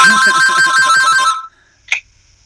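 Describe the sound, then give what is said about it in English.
A mobile phone ringtone plays a bright, repeating electronic melody with a steady pulsing rhythm, then cuts off abruptly, followed after a short silence by one brief high chirp. “Sorry about the phone.”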